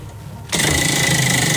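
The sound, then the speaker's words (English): A prize wheel spinning during a call-in song-popularity game gives off rapid, steady clicking. It starts abruptly after a brief quiet moment and runs continuously and evenly to the end. “Can we just get a sound effect of the spinning wheel? Hang on. Oh, gosh. Hang on. I reckon the mic will hear it from over there.”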